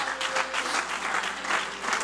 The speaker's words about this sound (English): Would you clap your hands, all your people? Clap your hands, all your people.